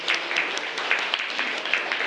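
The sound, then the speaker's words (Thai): Classmates applaud a student's answer in a classroom: a dense, steady patter of many hands clapping, with sharper individual claps standing out now and then, continuing evenly and without talk. “ยอดเยี่ยมมากเป็นคำตอบที่น่าประทับใจปรบมือให้เพื่อนหน่อยครับ”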